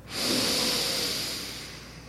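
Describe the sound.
One long, deep breath is drawn in during a breathing exercise. The loud, airy hiss swells quickly, holds, then eases off slightly toward the end, with no speech.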